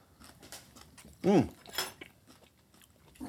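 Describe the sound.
Eating sounds as people share ramen soup with chopsticks: a few short chewing and biting noises, one louder burst near the middle, with brief voice sounds around them.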